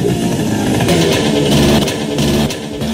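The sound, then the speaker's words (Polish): Small scooter engine running: a steady, fairly loud droning hum that holds an even level, with slight surges in intensity and no pauses. “Kupiłem ten skuterek za butelkę whisky, a teraz jadę ponad 1000 km tylko po to, żeby wejść i zjechać z Mont Blanc.”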